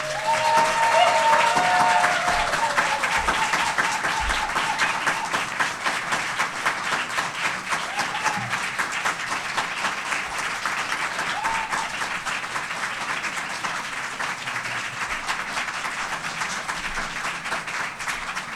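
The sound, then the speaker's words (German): Audience applause in Kiel, offered for someone in Minneapolis, rises as dense, steady clapping from a large crowd and holds for a long stretch, loudest at the start and easing slightly as it continues. “Also bei dem Kieler Applaus kann es nicht bleiben. Jetzt mal ein Applaus für Minneapolis.”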